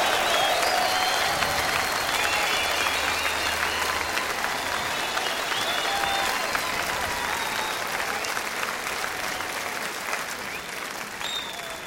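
Sustained audience applause and cheering at a rock concert welcomes a guest musician from Sweden's Pain of Salvation, a dense continuous roar of clapping with a few whistles that slowly fades over about twelve seconds.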